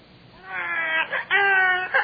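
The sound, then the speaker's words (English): A newborn baby cries in a stable among cows and goats, giving several thin, piercing wails broken by short catches of breath. “the little piercing wail of an infant. "Oh, listen, Daddy, baby's crying."”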